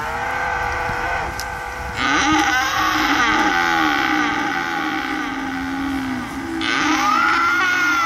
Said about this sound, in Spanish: un bramido lleno de tristeza y de ira a la vez